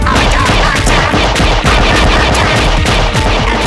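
Rapid gunfire as weapons open fire during an attack on a refueling station whose outer wall has been breached. Dense, overlapping shots form a loud, continuous barrage that lasts the whole clip.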